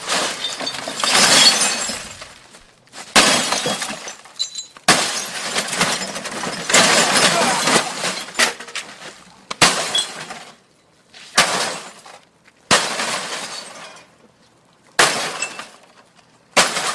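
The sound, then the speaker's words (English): Glass shatters again and again as a plugged-in TV is smashed: many loud, harsh crashes and breaking bursts in irregular clusters, separated by short silences. “So I'm going to try smashing this TV while it's plugged in, and I want to see what happens.”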